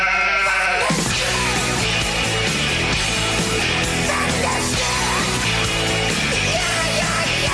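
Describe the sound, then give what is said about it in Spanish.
A flock of sheep bleats continuously, many loud, wavering cries overlapping one another without a pause. “Las ovejas se están rebelando. No me digas. Dios mío. Por aquí ya hay algo. El rebaño está a punto de llegar.”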